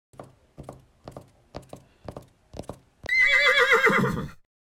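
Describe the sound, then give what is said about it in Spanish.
A small horse whinnies loudly after a run of many paired hoof clip-clops. The high, wavering neigh lasts just over a second and then cuts off. “vio algo hermoso. Un caballito de 7 colores, brillante como un arco iris.”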